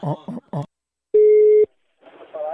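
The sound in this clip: A single steady telephone tone of about half a second sounds while a call is being placed. Brief bursts of voice come before and after it.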